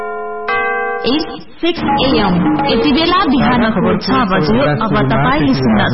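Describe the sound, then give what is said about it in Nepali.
The 6 a.m. time signal of Radio Sahino 89.8 MHz: a brief steady electronic tone with rich overtones, followed at once by continuous talk. “89.8 megahertz साहिनो समय सूचक अहिले बिहानको 6 बज्यो”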